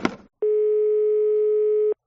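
A single steady telephone ringing tone sounds as a call is placed to a pizza shop. It follows a short burst of noise and holds an even pitch for about a second and a half before cutting off.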